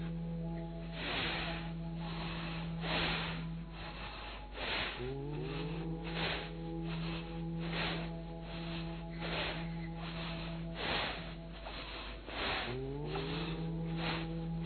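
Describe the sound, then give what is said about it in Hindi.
Bhastrika pranayama breathing fills the chest with forceful breaths in a steady, rapid series of breathy rushes, repeating evenly over a soft, sustained musical drone. “सबसे पहले beginning में हम लोग भस्त्रिका प्राणायाम क्यों करवाते हैं, क्योंकि ये हर व्यक्ति जो है वो कर सकता है। सिर्फ नॉर्मल आपको सांस लेना है और सांस छोड़ना है, लेकिन सांस को छाती में भरना है”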